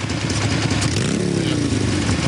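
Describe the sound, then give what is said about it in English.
A huge red motorbike pulls up and parks outside a biker bar. Its engine gives a loud, continuous, throbbing rumble with a rough, clattering edge. “Now, someone on a huge motorbike pulls up and parks at a biker hangout beneath a wooden sign reading Silver Creek Bar.”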